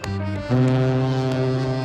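A ferry's deep horn sounds as the boat prepares to depart. It is one continuous blast, rich in harmonics, that grows louder after its first half-second and holds steady to the end.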